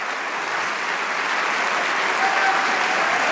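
Congregation applauding during a church service: dense, steady clapping that holds loud and even throughout, swelling slightly toward the end.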